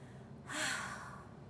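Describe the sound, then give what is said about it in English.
A single strong, forceful exhale during a guided breathing meditation, a breathy rush lasting about a second that swells and then tapers off over a low, steady background hum. “When you are breathing, breathe out. If you feel anywhere stuck or blocked, you can breathe out a little stronger, like”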